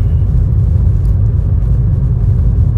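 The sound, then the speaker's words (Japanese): Steady low engine rumble of a car being driven after work, a dense continuous drone with no clear breaks and nothing above it. “今運転中です”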